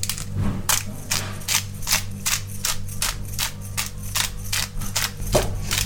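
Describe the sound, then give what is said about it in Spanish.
A grinder cracks a five-pepper blend over a salad, making a rhythmic run of many sharp, crunchy clicks at a steady, even pace. “Salado, un poquito de pimentica, de 5 pimientas se llama esto.”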